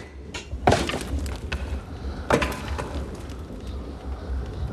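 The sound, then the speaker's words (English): A basement boiler door opens and wood is thrown onto the fire, heard as two sharp wooden knocks with a few softer thuds and shuffles between them. “He opens the boiler door. Kneeling, he throws wood onto the fire.”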